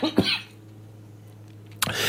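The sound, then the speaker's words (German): A person coughs twice, two short harsh bursts with a pause between them, over a steady low hum. “Ich muss mir noch mal husten.”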